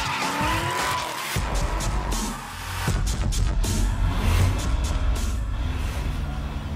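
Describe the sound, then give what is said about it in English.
Drift cars skidding at a track in India, with tire squeal and roaring engines merged into a loud, dense, continuous noise that swells slightly midway and holds steady throughout. “This discipline that he wants to launch in India is called the drift. It is the art of controlled skidding and engines that roar.”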